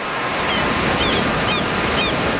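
Ocean waves break along the California coast, making a continuous, even roar of surf with no clear pauses or breaks in the wash.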